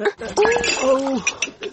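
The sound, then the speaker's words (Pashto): Dishes clattering as a bowl of yogurt is handed over, a few light clinks of crockery under people talking. “اوهو داسې کوي، دومره لوښي دې یو ځای په لاس کې نیولي. لالا دا د مستو کاسه رانه در واخله.”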